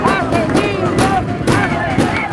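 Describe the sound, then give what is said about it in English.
Protesters bang their fists on metal barricades in a loud, rhythmic pounding, roughly two blows a second, mixed with shouting crowd voices. “There, they bang their fists on metal barricades”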